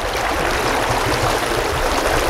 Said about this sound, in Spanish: Este entorno natural alberga la fuente de agua mineral Kolar y está atravesado por el sereno arroyo Teplitzer.